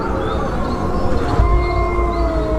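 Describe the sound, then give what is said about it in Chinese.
A pack of wolves howls on a freezing winter night near a lake, several long, wavering tones overlapping and drawn out over a steady low rumble. “一群狼应声而来。”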